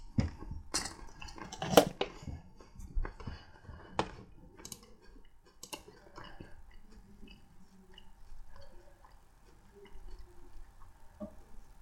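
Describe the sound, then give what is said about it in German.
Crunching from nuts being chewed: many crisp, irregular clicks and cracks, loudest and densest in the first few seconds, then continuing more softly and sparsely with no talk. “Esse ich noch Nüsse.”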